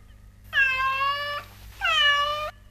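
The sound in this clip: A cat meows twice in a game of guessing animal sounds: two clear, drawn-out meows separated by a short pause.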